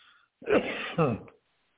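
A person clearing their throat: two short, rough, harsh bursts in quick succession, alone and fairly loud, followed by silence.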